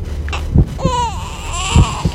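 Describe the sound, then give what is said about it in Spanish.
Baby crying in a couple of drawn-out wails that bend downward in pitch, mixed with soft thumps and breaths. “¿Se oye un bebé? Sí, de momento se oye un bebé”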